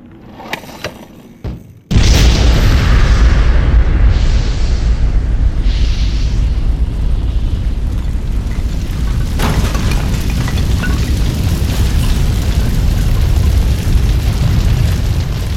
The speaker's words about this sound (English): An immense column of fire licks the sky before falling in a heap of rubble. Fire roars through the factory